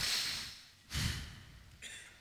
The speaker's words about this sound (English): You close your mouth and take a deep breath in your nose and out your nose.